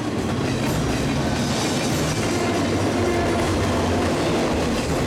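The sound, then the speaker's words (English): Train passing a road crossing beside a parallel road: a loud, dense, continuous rattle of rolling cars with rhythmic clickety-clack from the wheels, holding steady throughout. “As they accelerate down a road parallel to the tracks, the train passes another crossing.”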